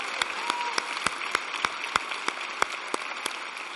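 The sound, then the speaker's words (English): Applause from a church audience, a steady patter of hands with sharp individual claps standing out at a fairly regular pace, heard alone without talk. “Let's give the Lord a big hand.”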